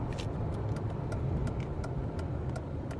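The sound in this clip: Car engine rumbling low and steady as the car pulls onto a parking lot, with faint light ticking clicks over the drone.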